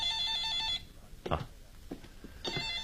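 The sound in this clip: A telephone rings with a bright, trilling electronic tone in two bursts, one at the start and one at the end, with a short voice speaking in the gap between them.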